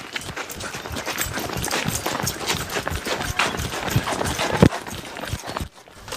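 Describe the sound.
Elderly villagers set off on a run, their footsteps pattering in a quick, rhythmic patter of many footfalls. The steps stay fairly loud and busy throughout, then drop away near the end.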